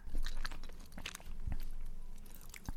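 Chewing white chocolate with salt: soft, moist munching and crunching run continuously, with a few sharper clicks and low thumps from the bites.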